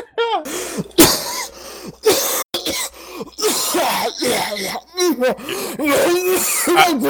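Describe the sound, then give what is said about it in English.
A fit of uncontrollable coughing: many harsh, rough bursts in quick, uneven succession, with strained voiced sounds between them. The coughing stays loud and nearly continuous throughout. “I start coughing uncontrollably.”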